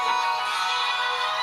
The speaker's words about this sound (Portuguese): É o meu telemóvel. Lembraste-te de atender... Olha, deixa-me atender para eu ver quem é que está aqui.